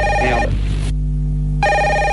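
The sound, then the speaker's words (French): A telephone rings in a client's home, a bright repeating electronic ring with steady harmonic tones that stop briefly, leaving a low hum, then resume, loud and alone. “en plus, il y a votre téléphone qui sonne”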